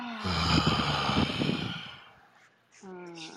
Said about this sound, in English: big deep breath in, exhale out of the mouth